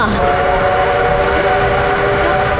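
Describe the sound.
A train whistle sounds as the train arrives at a station, a steady, loud, sustained tone held over a continuous rumble of rail noise throughout.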